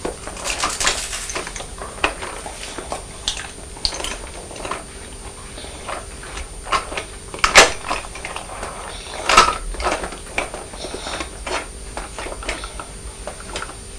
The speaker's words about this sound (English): it's the truck hitting the blue bowl with cornflakes